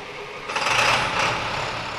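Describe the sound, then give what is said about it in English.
A truck carrying a mobile X-band dual-polarization radar system runs its engine, a steady droning rumble that swells a little after the start and holds without talk. “And here are some of the big guns. This truck carries the UAH Mobile Alabama X-Band Radar System, MAX for short.”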